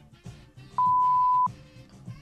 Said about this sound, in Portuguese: Por favor, deixe uma mensagem depois do sinal.